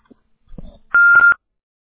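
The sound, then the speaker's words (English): A voicemail beep sounds as a single loud, steady mid-pitched tone lasting under half a second, preceded by a few faint soft clicks and thumps. “if you leave your name and number at the beep, I'd be sure to get back with you as soon as I can”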